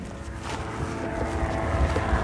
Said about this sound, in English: So this isn't a plane. It's a paragliding thing with a motorized paraglider type microlite. What are they called? Like a fixed wing with an engine underneath.